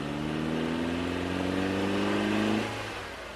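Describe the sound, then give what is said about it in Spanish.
A car engine accelerating as the driver presses the accelerator: a loud, steady mid-pitched roar whose tone climbs slightly for over two seconds, then drops away and fades near the end, with no voices. “dice, apretando el acelerador.”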